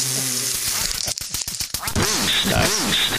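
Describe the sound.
Duck quacking sound effect: two nasal, harmonic quacks close together near the end, after a stretch of rough crackling noise.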